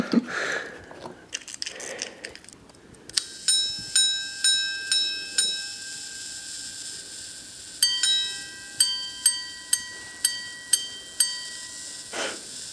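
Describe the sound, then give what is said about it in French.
Bright, high bell-like chimes of a minute repeater watch striking hours, quarters and minutes: a run of evenly spaced single strikes, a brief pause, a two-tone quarter strike, then another run of single strikes, after some rustling handling noise. “Puis la plus précise, c'est la répétition minute. Elle donne l'heure, le quart d'heure et la minute.”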